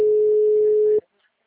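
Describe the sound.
Telephone line tone while placing a phone call, one steady mid-pitched beep held for about a second before cutting off abruptly into silence.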